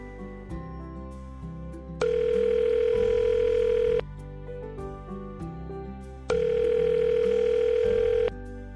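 A telephone line tone plays as a campus radio host places a call, heard as two long, steady buzzing tone bursts over continuous background music.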